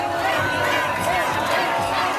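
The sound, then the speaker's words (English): Football fans shouting and cheering in Barcelona as Spain shut down Argentina, a loud, dense roar of many voices that stays steady without pause. “said fan Juan Rodriguez in shock as fans leapt and shouted around him”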